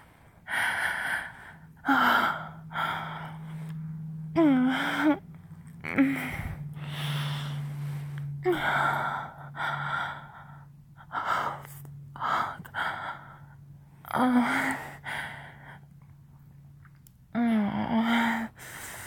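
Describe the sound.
Heavy breathing and breathy moans from a person in an intimate adult scene, many gasping breaths and voiced, wavering moans in uneven bursts over a faint steady hum.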